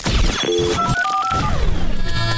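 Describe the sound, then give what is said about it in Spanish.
A telephone rings for an incoming call, its high ringing tones layered with a dense, busy mix of other electronic sound effects throughout. “Ya mismo, recibimos llamada.”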